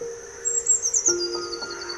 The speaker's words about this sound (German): Sie zwitschert dir immer mal wieder zu und schaut dich mit ihren kleinen schwarzen Knopfaugen neugierig an.